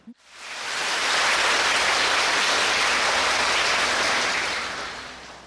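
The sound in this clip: Dense applause from students at a Buddhist retreat: a loud, steady wash of many hands clapping together that swells in quickly, holds evenly, then thins and fades at the close.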